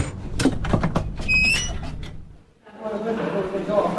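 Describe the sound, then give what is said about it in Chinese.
An operating room door is pushed open with a few knocks and clatters and a brief high squeak, then a short lull before a softer, steady noise follows. “才推门走出手术室”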